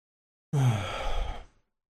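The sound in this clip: A single low, breathy groan opens a metal song. It is one drawn-out voiced exhale lasting about a second, starting strong and tailing off, heard alone.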